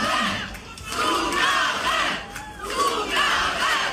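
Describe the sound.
A crowd of women chanting for an encore at a live show. The loud, sustained massed shouting swells and dips in a few waves.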